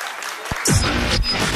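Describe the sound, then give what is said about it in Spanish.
Applause that starts after a short low thump, then a full burst of clapping that continues dense and steady to the end. “palmas para ti.”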